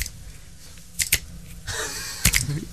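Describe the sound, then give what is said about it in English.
Finger snaps made while trying to keep time with a music track come as two quick pairs of sharp, dry clicks, uneven in spacing, over a low steady background. “Can't even click your fingers in time to a track. No, I can't. I've got no rhythm. No, with me now. Go.”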